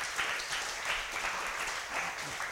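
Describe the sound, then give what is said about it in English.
Applause for the cooks at a junior high session, a quiet but steady patter of many hands clapping that stays even for a couple of seconds with no voices over it. “the cooks ought to get a big hand at that.”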